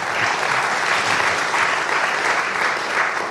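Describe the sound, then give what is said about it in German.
Applause from an audience at a panel event on the circular economy: dense, steady clapping from many hands, loud and continuous throughout, with no talk over it. “es kann immer wieder applaudiert werden.”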